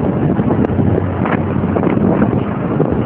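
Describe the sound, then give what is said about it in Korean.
Loud, steady wind roars through a car on a highway toward Gangwon Province with every window and the roof open. The dense, buffeting rush continues without a break and has no voices. “지금 너무너무 시원한 바람 맞으면서 창문 다 열고 지붕까지 다 열었습니다.”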